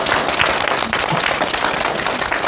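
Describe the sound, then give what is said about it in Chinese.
An audience of children applauds to welcome a professor at a recitation class. Dense, continuous clapping holds at an even level for the whole stretch. “我们热烈的掌声欢迎姚教授”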